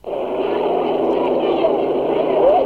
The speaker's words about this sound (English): All five boats are running in their warm up. Miss Eagle Electric is a favorite.